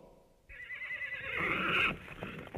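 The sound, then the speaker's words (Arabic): A horse whinnies in one long, high, wavering neigh lasting over a second. It swells toward the end, then breaks off into quieter low rumbles, and is fairly faint overall with no voices. “حصان حصان حصان حصان.”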